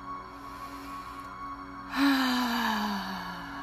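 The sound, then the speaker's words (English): One deep breath is drawn in during a guided meditation, a soft, airy inhale that swells and then fades over a steady, humming musical drone. “Another breath in.”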